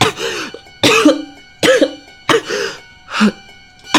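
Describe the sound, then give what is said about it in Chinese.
Heavy, harsh coughing from a pale man leaning against a wall, coming in about five loud, spaced bursts with short pauses between them, each fit rough and throaty. “林天宇脸色惨白，突然扶着墙壁重重地咳嗽起来。”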